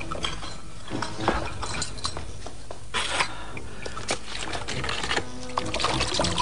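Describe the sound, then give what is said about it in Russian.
Dishes clink while a cup is washed, with many light, irregular chinks and clatters of crockery and cutlery over a continuous rushing noise. “Надо же вымыть чашку.”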